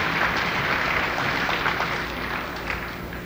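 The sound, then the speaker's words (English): Congregation applauding after the last chorus of a church song, a dense and continuous wash of many hands clapping that eases slightly toward the end. “yourselves a hand for that last chorus, will you? Good.”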